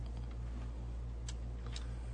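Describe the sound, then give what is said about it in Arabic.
Two faint clicks as the Enter key is pressed on a computer keyboard, heard over a low, steady hum. “ان انا اضغط انتر واروح على،”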